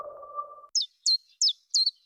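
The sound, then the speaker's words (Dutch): Chiffchaff song: four short, high, evenly spaced notes, each sweeping downward, after a brief low humming tone. “Wanneer hoor jij de eerste tjiftjaf?”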